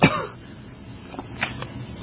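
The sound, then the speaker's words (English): A single sharp cough breaks out right at the start, followed by quiet background noise with a few soft, faint breathy sounds. “Excuse me, I'm about to cough.”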